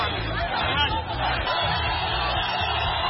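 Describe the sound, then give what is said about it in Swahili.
A crowd at Julius Nyerere International Airport welcomes Tundu Lissu home from exile: a continuous hubbub of many voices chattering and calling out, with occasional cheers rising from the babble. “Na mshango na nderemo zikihinikiza katika uwanja wa kimataifa wa Mwalimu Julius Nyerere wakati Tundu Lissu amewasili kutoka ughaibuni”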